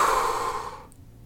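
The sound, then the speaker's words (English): A deep breath exhaled during a guided breathing exercise: one long, breathy rush of air that starts fairly strong and fades away over about a second, with no talking. “Take a deep inhale, fill your belly up. Exhale, let it go.”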